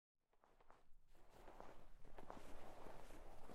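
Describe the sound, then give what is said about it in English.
Marching footsteps of many people walking with heads down, shuffling steps rising out of silence and growing steadily louder in a dense, continuous tread. “People. Marching. Who are they? 10th generation of them Pierre Corday brought and kept here. The way they walk, heads down, arms hanging.”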